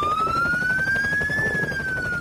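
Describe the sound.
A police car siren wails during a traffic stop, a single loud tone sweeping upward and then easing slightly down, over a steady low engine rumble.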